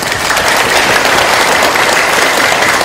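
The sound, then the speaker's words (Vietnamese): A loud, sustained round of applause comes from the audience at a Buddhist dharma talk. Dense overlapping claps stay steady throughout, with no voices above them. “Cho một tràng pháo tay thật lớn.”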